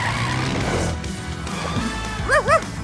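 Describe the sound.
Ryder's red quad bike starting up in a Paw Patrol audio drama, a dense, steady engine roar, then two short chirping squeals near the end.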